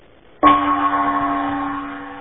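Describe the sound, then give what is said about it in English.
A single gong strike gives a sharp attack and then a sustained, bright metallic ring with a steady low tone that slowly fades with no other sounds. “Here's the gong. Stand by.”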